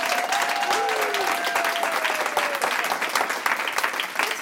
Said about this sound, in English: So, audience, can you please introduce yourself with a big round of applause that we'll capture on audio?